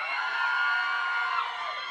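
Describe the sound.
A crowd of women screams and cheers in a continuous, fairly loud roar of high-pitched voices that holds steady for about two seconds.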